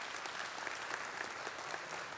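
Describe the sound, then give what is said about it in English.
Hand-clapping praise from a church audience at a morning service, faint but steady and dense, with individual claps blending into an even wash of sound. “Can you just give God a hand clap of praise this morning?”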